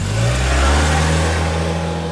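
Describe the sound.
A passenger van's engine drives the whole clip as the company van pulls away with staff aboard, a loud, steady mid-pitched hum with constant low tones and no pause.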